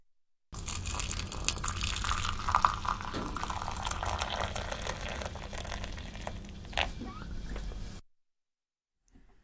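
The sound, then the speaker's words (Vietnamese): Hot water, just off the boil and cooled to about 90 degrees, poured into a small teapot holding tea leaves; a steady, soft rushing pour runs for about seven seconds, then stops. “Cho lá trà vào một ấm trà nhỏ, rồi đổ nước nóng vào.”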